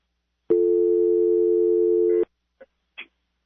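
A telephone busy tone sounds after a caller on a patched-through call-in line hangs up: one loud, steady low buzzing tone of nearly two seconds that stops sharply, followed by two faint clicks.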